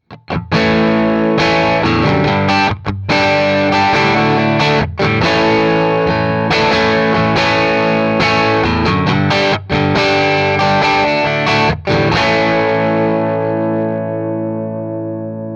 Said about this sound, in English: So this is what it sounds like to have a long speaker cable run. This is 50 feet of speaker cable, short guitar cable to the head, you know, 8 foot, but then 50 feet out to the cab.